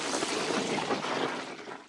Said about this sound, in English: I'm using my trunk to give myself a shower, said El Elefante,